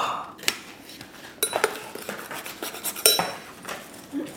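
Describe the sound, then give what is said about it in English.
Cutlery clinking in a home kitchen as a knife is pulled out while cooking: scattered bright metallic clinks and rattles of silverware against dishes, irregular and moderately loud. “Grab a knife out.”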